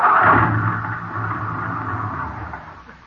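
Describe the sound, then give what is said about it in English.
A car engine dies as the car runs out of gas at a lonely spot. A low, droning rumble starts fairly loud and gradually sinks and thins over a few seconds as the motor winds down. “Well, what do you know? We ran out of gas.”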